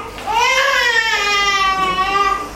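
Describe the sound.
A baby cries in one long, wavering wail lasting about two seconds, loud and alone, its pitch lifting early and then sagging toward the end.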